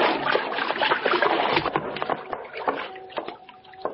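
Water splashes and sloshes as someone is pulled out with a rope, a run of irregular wet slaps and churning that eases off toward the end.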